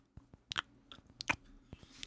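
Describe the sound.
Crisp bites and chewing on a saltine cracker, quiet and close, with several dry crunches spaced irregularly between moments of near silence.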